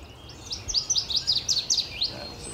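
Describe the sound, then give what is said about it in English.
A northern waterthrush sings from bushes in a rapid run of loud, high, sharp chirps. The notes come in quick succession over a faint background hiss. “I'm hearing a northern water thrush singing in the bushes right there. That loud chirping sound descending in pitch.”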